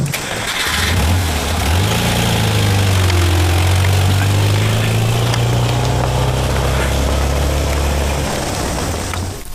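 A car starting up and driving off: a loud, low engine rumble that rises in pitch around the second second, then holds steady and strong almost to the end.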